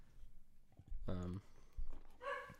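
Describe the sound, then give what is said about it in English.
A dog barks twice in two short, tonal barks, fairly faint, with quiet speech around them. “Sorry about the dog barking.”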